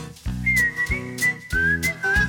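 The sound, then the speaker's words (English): Someone whistling a melodic tune in a song, bright notes moving up and down in pitch over a rhythmic instrumental backing. “And I'm in the mood for whistling. I'm in the mood for whistling.”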